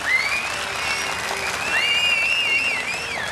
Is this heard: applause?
yes